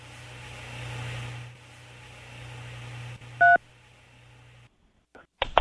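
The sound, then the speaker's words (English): A single short telephone keypad beep, dialing 3 to accept the charges on a collect call from a jail inmate, sounds over a low steady engine hum, followed by silence and a few faint clicks. “To accept the charges, dial 3.”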